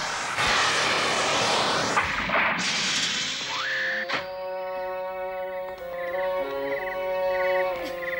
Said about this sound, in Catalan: L'avió aterra en una clariana del bosc.